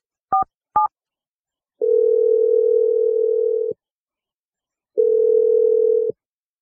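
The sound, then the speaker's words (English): Telephone keypad tones as a number is dialed: two short beeps, then two long, steady ringing tones separated by a pause of silence, with no talk. “All right, I'm going to dial her number now.”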